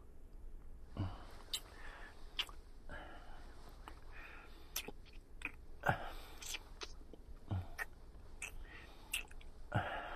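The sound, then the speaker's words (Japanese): Someone chews strawberries with soft, wet mouth sounds: many irregular smacks and clicks over a quiet hush, and no one talks. “もっと食べたらさらに甘くなりそうだね、香りも味も。”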